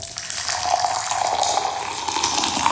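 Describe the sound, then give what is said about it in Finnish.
Hot water splashes onto a hard surface in a continuous, fairly loud, bright hiss of fine droplets that stays even throughout, with no talk. “Kun kuuma vesi osuu kovaan pintaan, se hajoaa pienemmiksi pisaroiksi ja pitää näin ollen korkeampaa loiskeääntä kuin kylmä vesi. Ja sen vuoksi kuuma vesi kuulostaa tältä.”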